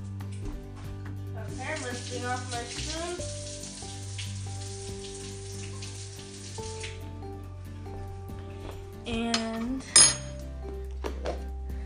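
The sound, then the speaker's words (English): A spoon clinks against dishes while food is being served, with scattered metallic taps and clanks over a steady, sizzle-like hiss, then a few sharper, louder clatters near the end. “Let me get my spoon.”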